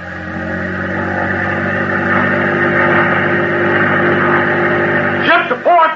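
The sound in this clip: A boat engine running at full throttle during a wartime attack run on enemy ships, a loud, steady, low drone with layered harmonic tones, and a brief voice cutting in near the end.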